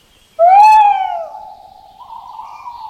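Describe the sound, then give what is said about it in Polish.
A tawny owl hoots from a tree beside a rural village house where a family of the owls lives in breeding season. One clear, sudden hoot opens strongly, then lingers as a softer, wavering tone that carries on to the end. “Obok wiejskiego domu Agnieszki na drzewie w okresie lęgowym mieszka rodzina szarych puszczyków, które pięknie i magicznie pohukują w nocy.”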